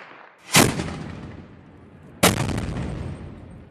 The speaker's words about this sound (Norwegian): Hell Cannons heter de, og er hjemmelagd artilleri. Prosjektilet er vanligvis propanflasker fylt med sprengstoff og løst metall.